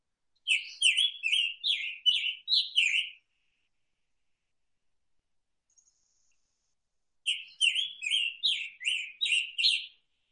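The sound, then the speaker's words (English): Scarlet Tanager song: two separate bouts of hoarse, burry, robin-like phrases, each made of several quick, high warbled notes. A few seconds of silence separate the bouts. “people often jokingly say a Scarlet Tanager sounds like a robin with a sore throat or a hoarse robin. So I'm going to play that now.”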